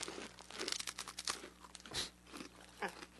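Crunching into a dry, crisp rusk: many sharp, brittle crackling bites come in an irregular rhythm, with a few bigger crunches standing out, fairly faint and with no talking.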